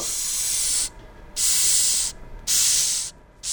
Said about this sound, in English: That's the sound of a Madagascar hissing cockroach